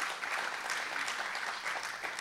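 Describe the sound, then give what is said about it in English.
Church audience applauding during a worship service, a dense, steady burst of many hands clapping that holds at an even level for the whole clip without a break. “let's give the Lord applause.”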